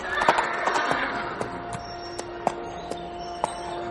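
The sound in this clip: Horses being ridden hard over a long journey: sharp, irregular hoofbeat knocks over a steady noisy bed, denser at first and then thinning out.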